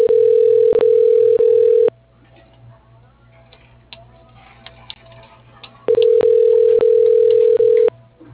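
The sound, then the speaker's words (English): A telephone line rings through to an office extension: two steady, loud ring tones of about two seconds each, separated by several seconds of quiet line hiss. “dialing Mark Sorensen, extension 102”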